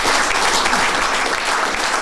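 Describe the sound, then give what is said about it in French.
Applause at an architecture award ceremony, a dense, steady wash of many hands clapping together at full strength throughout, with no voices standing out. “Applaudissements.”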